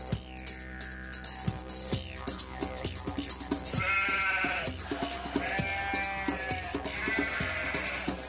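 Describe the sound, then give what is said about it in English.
Sheep bleat a few times, each call wavering and nasal and rising over a steady, rhythmic ticking pulse. “What are you doing to that sheep? Leave that sheep alone. Who let the sheep in?”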